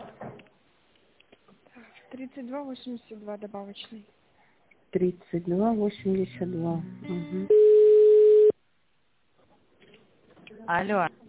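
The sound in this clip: A flat telephone tone about a second long sounds as an office call is transferred and connected. Stretches of talk come before it, and speech resumes after a short silence.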